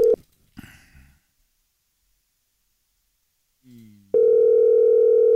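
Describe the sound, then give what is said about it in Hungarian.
A telephone dial tone sounds while calling a listener: a few brief rustling noises, then a pause, then a loud, steady, unbroken tone that runs to the end. “Na, hívjuk a nap hallgatóját gyorsan.”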